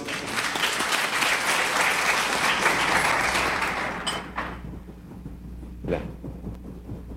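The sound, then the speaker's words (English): Audience applause welcomes a speaker on stage at an Isha organization event, dense sustained clapping for about four seconds before it thins out and fades to a quieter room. “Please put your hands together as you welcome Master Salim.”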